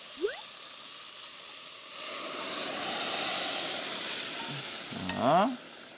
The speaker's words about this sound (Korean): 육수를 넣어 보겠습니다. 아, 육수를 네. 자, 멸치를 걸러줘야 되니까 제가 받쳐 볼게요.